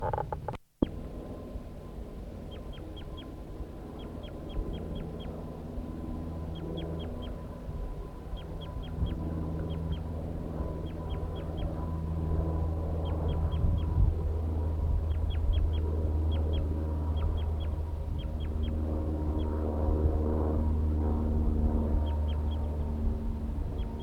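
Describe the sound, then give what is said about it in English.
A male bird near a nest tree gives a long bout of flight calls: short, high chips in quick clusters, repeated again and again throughout. The calls are faint over a steady low rumble. “The male gave a long bout of flight calls”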